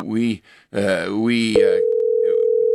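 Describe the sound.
A steady telephone line tone on a call-in line follows a stretch of speech, then holds one unbroken pitch at a constant level to the end.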